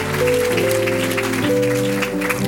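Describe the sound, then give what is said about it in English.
Crowd clapping hands in honor of the First Lady, a steady, dense patter running over sustained musical chords that shift at a couple of points. “Let's clap our hands for our mom, the First Lady.”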